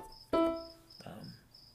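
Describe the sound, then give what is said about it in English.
A cricket chirps outside with short, high, thin trills that repeat at a regular pace and stay quiet, interrupted by one brief louder tonal burst and a short vocal sound. “And if you can hear a cricket outside, I just want to let you know, I'm going to let the cricket be, but it's going to be a cricket, as crickets will be.”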